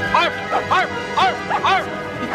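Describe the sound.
A dog lets out several quick, yipping barks in a rapid, uneven series, each bark short and bright and fairly loud.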